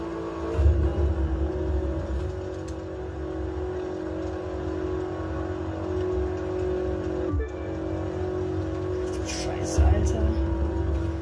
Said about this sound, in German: Wir entdecken Nevada von Las Vegas nach Golden so. Hills mit seinen Rennstrecken. Ich muss jetzt einfach nur fahren.